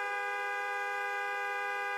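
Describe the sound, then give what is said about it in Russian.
A long, unbroken car horn sounds from a Lada 'nine' (VAZ-2109) parked at the edge of a forest. It is one steady, fairly faint tone that holds at the same pitch for the whole clip, with no other sounds. “услышала долгий автомобильный гудок”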